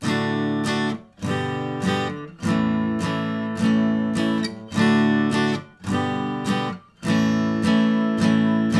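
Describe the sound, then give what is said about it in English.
A guitar strums a D, G and A chord progression in a straight, even rhythm, playing D twice, G twice and A four times. The strums are steady, loud and ringing, with no voices. “you actually have to play the D chord twice, G chord twice, and then A chord four times.”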